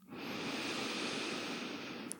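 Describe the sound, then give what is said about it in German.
A long, deep inhale during a guided breathing exercise makes a steady, airy hiss that lasts about two seconds. It is quiet and alone, with no talk. “Atme tief, vollständig und gleichmäßig ein”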